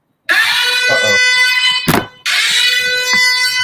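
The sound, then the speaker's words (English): An alarm buzzer signalling that mail has arrived sounds in two long, loud, harsh blasts, separated by a short break with a dull thump between them. “Is that the mailman? That's the alarm. It's mail.”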